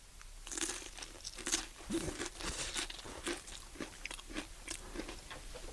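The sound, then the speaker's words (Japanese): Biting and chewing an Aiko mini tomato dressed with olive oil and onion: many quiet, wet crunches and squelches in an irregular rhythm, with no talk. “アイコっていう名前のトマト。アイコっていう名前の。あ、ミニトマト。へえ、あ、はい、ミニトマト、アイコ。いただきます。”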